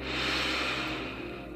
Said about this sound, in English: Deep breath in.